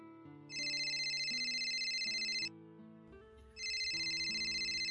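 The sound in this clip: A telephone ringtone plays as a melodic electronic tune. It comes in two loud bursts of bright, high chiming tones, separated by a quieter stretch of lower stepping notes, and no voices are heard.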